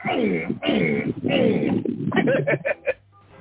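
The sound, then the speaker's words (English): A voice imitates pigeon cooing, giving four short, quick coos in a row after a stretch of ordinary talking. “Pigeons get to New York and they're like, boo, boo, boo, boo.”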